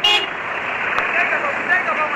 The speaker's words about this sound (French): Enfin, les pick-up de la gendarmerie nigérienne arrivent.